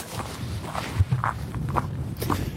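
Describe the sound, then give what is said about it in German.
Footsteps along a mountain trail on the Brocken, a few soft, irregular steps heard faintly against a steady low background, with two firmer thuds near the middle and no clear talk. “So, wir gehen jetzt zum zweiten Multi hier auf dem Brocken.”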